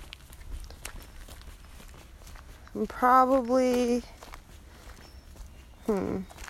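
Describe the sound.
Footsteps of a hiker on a three-mile woodland trail, steady soft steps throughout, with a voice sounding out briefly twice over them.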